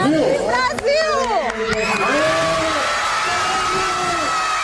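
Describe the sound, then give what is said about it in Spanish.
A whole school of children at a school in Brazil cheering and shouting in celebration, many high voices overlapping in a loud, sustained roar, with a few sharp hits early on. “Todo un colegio en pie, aplaudiendo, celebrando que acaban de convertirse en el mejor del mundo.”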